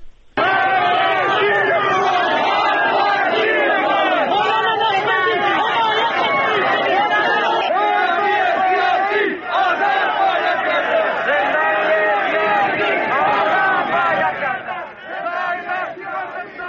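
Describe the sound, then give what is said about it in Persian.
A large crowd of protesters in Zahedan shouts slogans calling for political prisoners' release and an end to executions, a loud, unbroken wall of massed voices that eases slightly near the end. “یک بار صدای اعتراضهای امروز رو از زاهدان بشنویم”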